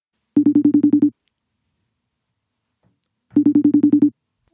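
A telephone rings while a call is placed: two bursts of rapidly pulsed, buzzy mid-pitched tone, each under a second long, separated by a gap of silence, with no talk.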